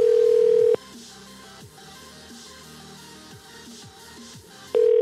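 A ringback tone on an outgoing phone call: a steady, low electronic tone sounds briefly, then a long pause with faint background hum follows, and the tone returns at the end.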